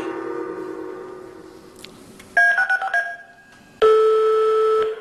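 Telephone keypad tones as a number is dialed: a quick run of short, bright beeps, then a longer steady tone, over a low background hum.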